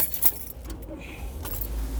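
Keys jangle with bright, metallic rattles as a car is started, and a low engine rumble builds and holds toward the end.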